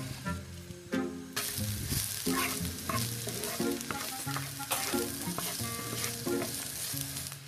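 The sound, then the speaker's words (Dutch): Fresh onions sizzle and crackle as they fry in a pan, a steady, dense hiss with scattered pops that continues without a break. “Zo, daar gaan ze, de verse uitjes. Ik pak er even een stoeltje bij. Het begint hier al heerlijk naar lekker een gesmoord uitje te ruiken.”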